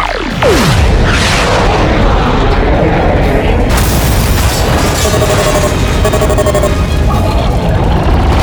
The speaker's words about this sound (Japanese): エネルギー充填完了まで3、2、1、0。 発射。